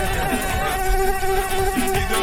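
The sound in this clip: Mosquito buzzing sound effect: a continuous, loud, thin whining drone rich in overtones, wavering slightly in pitch and never pausing.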